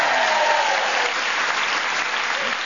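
A studio audience applauds to welcome four panelists of a comedy panel game, with dense, steady clapping heard alone that eases slightly toward the end.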